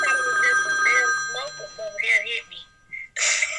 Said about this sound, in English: the phone was ringing.